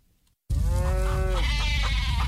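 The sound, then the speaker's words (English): Restless farm animals bleat. After a moment of quiet, a loud sheep-like bleat breaks in abruptly and wavers over a long call, then turns rougher above a constant low rumble. “Hey, everybody, calm down. It's okay. Oh, it's coming. The farm animals can always feel it.”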